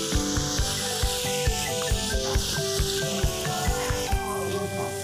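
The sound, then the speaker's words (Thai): Red ant eggs stir-fried with pak wan leaves in a pan, heard as many evenly spaced scraping stirring strokes over a steady hiss, with tonal music underneath. “ตอนนี้ผมกำลังผัดไข่มดแดงใส่ผักหวาน”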